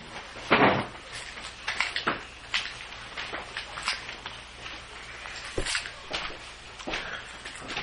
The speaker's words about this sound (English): another fellow now open the cabinet. Oh, here's vodka right here. Let's go take out something from the cabinet.